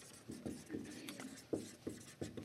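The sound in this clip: Pen strokes sketch a small tablet shape like the Ten Commandments, a series of short scratchy rubbing strokes in an uneven rhythm, each one a brief soft scrape.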